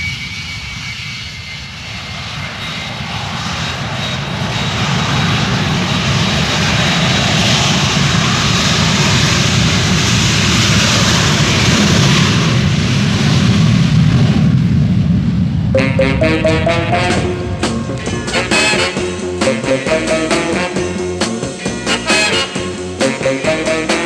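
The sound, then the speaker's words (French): An Air France Caravelle jet airliner takes off with a loud, sustained engine roar that swells over the first stretch, then turns into a harsher, pulsing whine in the final seconds. “La piste est libre, vous pouvez décoller. Virage à gauche après le décollage. Caravelle Air France compris, virage à gauche après décollage, nous alignons et décollons.”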